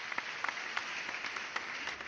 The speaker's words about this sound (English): Please give a round of applause to Professor Stephen Withers from the Chemistry Department at the University of British Columbia.